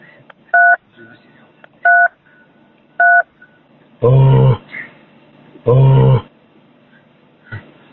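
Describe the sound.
Three short two-tone beeps sound at an even pace as a telephone call is transferred, followed by two louder, rough bursts, with a faint line hiss underneath.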